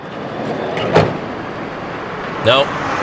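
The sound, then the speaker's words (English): A van pulls up, not the expected hotel shuttle: steady low vehicle rumble with two brief, high, tonal squeaks standing out above it. “Nope. That's not our hotel van. Sound familiar? That's not our van either. I don't know where it is. Tired of waiting on the van? No. That is not our hotel van.”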